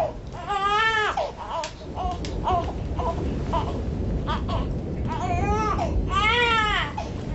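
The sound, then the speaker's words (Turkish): A baby wails and cries while being laid down at night, loud and continuous, with a few drawn-out cries that rise and fall in pitch, separated by shorter choppy sobs. “Çırpınarak ağlayan bebeği öfkeyle divana yatırdı Seher.”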